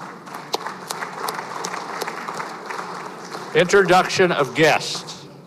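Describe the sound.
Applause welcoming guests in the Missouri Senate chamber: steady, moderate clapping from many hands, followed by a voice speaking over the tail of it.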